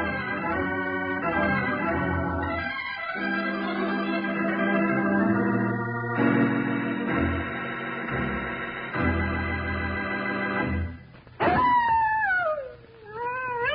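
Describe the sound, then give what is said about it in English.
A coyote howl from the American West, a long wavering cry that rises and falls, comes in near the end after a stretch of steady, layered music. “Hear that, kids? Hear that? Well, that's the howl of a coyote, a sound you hear lots out west.”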